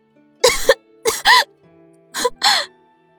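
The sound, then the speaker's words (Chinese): Rapid, harsh coughing from a young woman choking on blood: five sharp voiced coughs arrive in two quick clusters, loud against near silence. “武之兰急促的咳了起来，一张小脸迅速转白，又降成猪肝色。”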